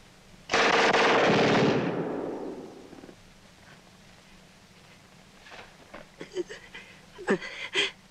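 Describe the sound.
A gunshot fired during a violent confrontation, heard as a loud, sharp blast with a long, rumbling tail that fades over about two seconds, followed later by a few fainter sharp sounds.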